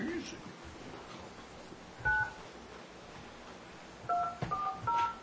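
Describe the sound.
Telephone keypad tones dial an account code into an automated phone line: a single tone pair, a pause, then a quick run of a few more clear, steady tones over low background hiss.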